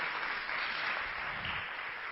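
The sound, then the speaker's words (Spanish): Audience applause fills the whole stretch as a dense, even wash of many hands clapping, moderately loud, with no break. “Muy fuertes los aplausos.”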